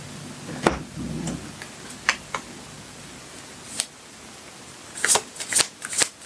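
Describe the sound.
Tarot cards being shuffled: a soft riffle early on, then scattered sharp card snaps and taps that cluster more densely toward the end.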